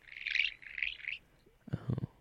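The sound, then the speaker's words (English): An African grey parrot calls quietly, a few high whistled chirps followed by a lower, rougher call. “That's an African gray parrot.”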